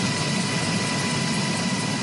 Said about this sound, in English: VOA Pentagon correspondent Carla Babb crisscrossed Alaska by helicopter Saturday with Secretary of Defense Lloyd Austin